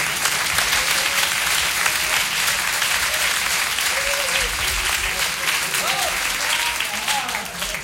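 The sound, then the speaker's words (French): Loud, sustained audience applause greets a contestant called up on stage at a televised show. Many hands clap in a dense, steady patter throughout, with faint voices underneath. “Oui, monsieur, approchez-vous, on vous applaudit très fort.”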